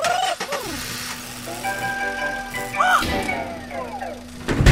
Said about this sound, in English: fire up the van.